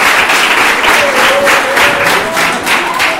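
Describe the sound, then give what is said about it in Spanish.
Loud, dense applause for a man at a secondary school event, many hands clapping in a continuous even wash that holds steady for several seconds, with no talk. “Un fuerte aplauso para ese hombre que también lo está haciendo.”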